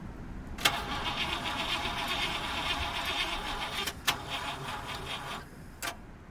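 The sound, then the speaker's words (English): Car engine with motor trouble runs with a rough, steady mechanical rumble, broken by three sharp clicks or knocks spread through the run. “More motor trouble? Oh, darn! There it goes again!”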